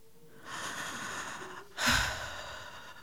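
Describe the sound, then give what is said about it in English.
A person breathes softly: two faint, airy breaths with no other sound, the second stronger and louder than the first. “And then I heard a breath that was not my own.”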